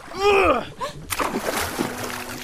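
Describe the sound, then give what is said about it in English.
Oars splash into Fire Lake after being tossed from a boat: a sudden burst of sloshing, splattering water that follows a brief voice and settles into a lingering wash. “Did you just toss our oars away? I did.”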